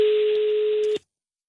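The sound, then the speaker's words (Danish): A telephone call being placed: a steady, mid-pitched dial tone hums for about a second, then cuts off abruptly into silence. “vi ringer ned til ham”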